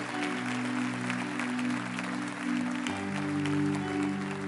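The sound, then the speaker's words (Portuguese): Applause during a church service: continuous clapping over sustained keyboard chords that shift to a new harmony partway through. “Aplauda Jesus, dê a Ele toda a honra e toda a glória.”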